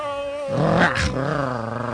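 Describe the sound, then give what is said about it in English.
A dog growls in a rough, rumbling roar. It starts moderate, swells to a louder, harsher peak about halfway through, then settles into a steady rasping tone for the rest of the two seconds. “Hold down, boy, I wasn't talking about you. You're a nice pal. Nice doggy.”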